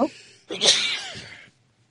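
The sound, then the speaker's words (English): A single sharp, breathy sneeze bursts out loud after a short sound at the start. It trails off quickly into quiet. “Forgive me, I'm sneezing.”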